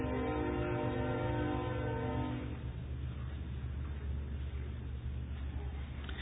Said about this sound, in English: I think I'll wait till the train goes past.